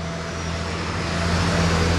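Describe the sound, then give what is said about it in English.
Cars drive along a downtown street in Houston, making a continuous broad traffic rumble with a low steady hum underneath. The noise builds slightly toward the end, with no voices. “Here in downtown, cars drive along Smith Street”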